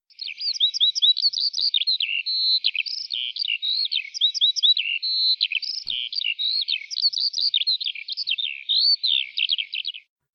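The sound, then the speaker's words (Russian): A skylark sings as it rises in flight over a field at dawn, pouring out a high, unbroken stream of rapid warbling trills and chirps that stays bright and fairly loud for about ten seconds, with no other sounds. “В поле между комьями холодной земли проснулся жаворонок. Он вскочил на ножки, встряхнулся, огляделся и полетел вверх. Полетел и запел.”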